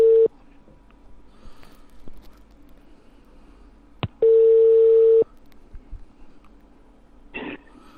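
Ringback tone of an outgoing telephone call: a steady mid-pitched beep. The tail of one tone ends at the start, and a second tone of about one second follows later over a quiet line with faint clicks.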